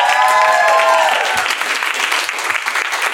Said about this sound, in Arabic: ف هذه اول حلقه نسجلها مع جمهورنا فصفق الجمهور